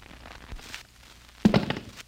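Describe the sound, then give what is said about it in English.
A shoulder holster with a gun in it is dropped to the floor. A few faint soft knocks come first, then one heavy thud with a brief rattling tail. “Unbuckle the shoulder holster without touching the gun. Drop it to your feet.”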